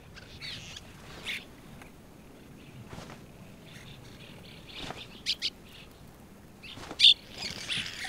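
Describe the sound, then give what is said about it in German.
Faint calls from a cliff swallow breeding colony at an old hot-spring travertine cone, where parents feed hungry chicks: a few short, sharp chirps scattered over a quiet, low background. “An der Rückseite befindet sich eine Brutkolonie der Pfahlstirnschwalben.”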